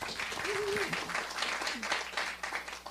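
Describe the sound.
An audience claps to welcome a speaker at a morning gathering: steady, even applause throughout, with a voice briefly audible over it.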